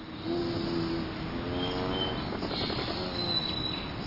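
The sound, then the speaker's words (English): Rufous hummingbird wings whir in a steady, buzzy hum that runs unbroken through the whole stretch, with a few thin, high chirps laid over it. “This whir of wings must mean the hummingbirds are back. The Anna's hummingbird spent the entire winter in the west and northwest. Now, this feisty Rufus hummingbird enters to stir things up.”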